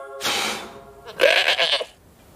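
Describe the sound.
A goat wearing a birthday hat bleats twice. The first call is long and steady, and the second, after a short pause, is louder and quavering.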